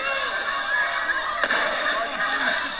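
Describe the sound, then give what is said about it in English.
Police fire a tear gas canister toward a crowd at a street intersection, a single sharp pop standing out amid loud voices and commotion. “Continuing to fire at us. Okay, there we go. Here's a gas canister.”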